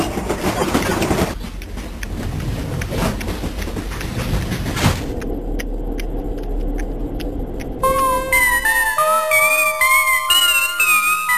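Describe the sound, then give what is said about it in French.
Interior of a moving passenger train, heard while walking through its carriages: a continuous rumble with rattling clatter and faint rhythmic clicking, and melodic tones enter over it in the last few seconds. “C'est déjà le quatrième wagon que je traverse et toujours aucun passager ni contrôleur. C'est pas possible que je sois seul dans ce train.”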